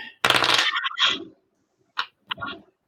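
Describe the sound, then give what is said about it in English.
A voice imitates gunfire during a tabletop role-playing game, the scene being a woman turning to shoot: a quick rattling burst, then two shorter bursts after a pause. “So, this woman turns and shoots. The bullets fly past you.”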